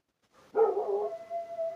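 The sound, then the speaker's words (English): A dog howls once in a short burst: a single sustained, tonal note that starts abruptly and holds at a steady pitch, alone without speech. “sorry, that's a dog.”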